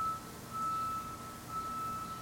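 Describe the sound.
A vehicle's reversing alarm gives a thin, high, steady beeping tone with a short gap, faint over a low traffic rumble.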